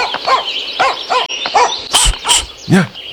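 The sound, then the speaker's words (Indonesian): Dog barking: a rapid series of many sharp, loud barks and yelps in quick succession, uneven in rhythm and varying slightly in pitch. “Anjingnya. Aku tidak punya apa-apa untukmu.”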